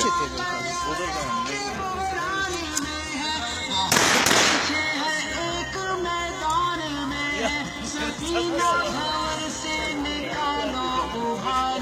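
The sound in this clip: Gunfire during an anti-terrorist operation: one sharp, loud burst cuts through a steady background, with a few fainter pops scattered around it and people talking throughout.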